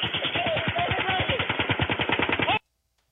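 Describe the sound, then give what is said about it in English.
A single gun fires a long, rapid, evenly spaced burst of many shots for a couple of seconds, then cuts off abruptly into silence. “Shots coming from the same point. One gun here.”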